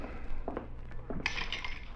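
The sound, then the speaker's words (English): Glasses clink and clatter lightly while a drink is mixed, with a brighter ringing chime of glass partway through. “How about mixing us a drink? Sure.”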